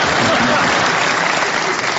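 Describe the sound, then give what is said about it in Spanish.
Audience applause: dense, even clapping that stays loud and steady for about two seconds, with no break and no talk over it. “¡No aplaudan eso!”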